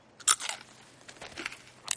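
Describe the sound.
A bite into a crunchy, salty dog treat: one sharp crunch, then a few lighter crackling crunches as the treat is chewed.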